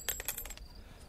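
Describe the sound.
A gold coin drops with a few quick, bright metallic clinks that ring faintly and fade out.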